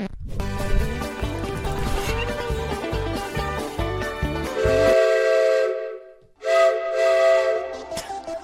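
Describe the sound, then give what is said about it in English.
Steam locomotive whistle sounding two long, steady, loud blasts with a short break between them, following several seconds of busy, dense mixed sound. “The locomotive has entered the station.”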